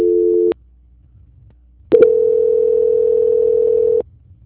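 Telephone line tone during a call transfer, a short steady beep, then over a second of near silence, then a longer flat mid-pitched tone of about two seconds that cuts off abruptly.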